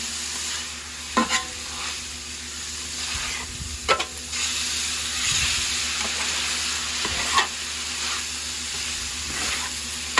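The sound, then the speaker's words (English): Heavily seasoned food sizzles steadily in a hot pan while it is stirred, with a few sharp scrapes and clacks of the utensil against the pan cutting through the constant frying hiss. “Okay, as you guys can tell, we got a lot of seasoning. Now let's get it going. Let's mix it all up.”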